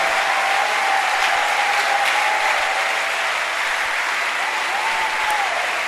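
A church audience applauding as an offering of praise to God during a bilingual French and English service, a dense, continuous wash of clapping that holds at a steady loud level throughout.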